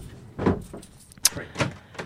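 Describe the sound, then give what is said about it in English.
A door being opened, with a few dull thuds and one sharp metallic click in the middle, moderately loud and spaced irregularly. “Okay, you fucking finish the show. I'll go get the fucking door.”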